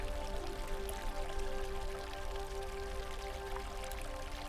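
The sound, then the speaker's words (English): Gently flowing forest stream gives a steady, even wash of moving water, continuous and moderately soft throughout, with no distinct splashes or separate events standing out. “a gently flowing stream that carves its way through the landscape.”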